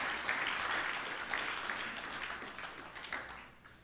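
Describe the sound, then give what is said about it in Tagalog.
An audience applauding during a church worship service: dense, steady clapping from many hands that gradually thins and fades toward the end. “Palakpakan po natin si Lord. Come on.”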